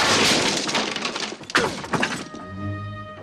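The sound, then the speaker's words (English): Feet crash through the back wall of a treehouse at the end of a slide along a rope: a dense, loud burst of cracking and breaking impacts with a sharp hit midway, then settling into a quieter steady sound. “he slides along the rope suspended 20 feet above the ground and doesn't stop until he hits the back wall of the treehouse, crashing through with his feet.”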